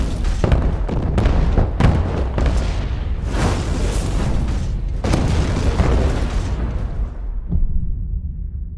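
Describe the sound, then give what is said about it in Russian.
A large explosion sets a whole floor ablaze during a film stunt: a loud, sustained roaring rumble with several heavy bursts, which dies away into a dull low tail at the end. “Все на этаже воспламеняется от взрыва.”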